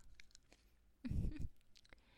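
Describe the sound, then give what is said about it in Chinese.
Close, quiet chewing of fruit while lying down: one short, moist, crunchy bite stands out, surrounded by faint wet mouth clicks and soft smacking. “我呢，就喜欢这样，躺在你怀里，吃着喜欢吃的水果，”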